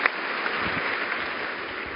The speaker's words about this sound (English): And please, for the pastor, applause for having this evening.